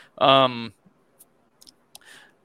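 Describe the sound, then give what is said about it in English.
Computer mouse clicks while moving through a fantasy football mock draft on screen: a brief voiced sound, then a few faint, sharp, isolated clicks spaced apart. “Let me click back over to the draft.”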